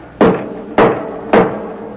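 Three loud, evenly spaced knocks on a church door, each a sharp thud that dies away quickly, with no voices.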